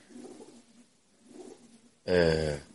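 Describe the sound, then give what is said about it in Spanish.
Pigeons coo outdoors in a spot crowded with them, like a big dovecote: two soft, low murmuring coos, then a much louder, richly harmonic call near the end. “Esto está lleno de palomas, parece un gran palomar.”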